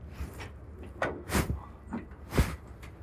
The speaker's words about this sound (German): Aber die Tür kann man ja mal auf.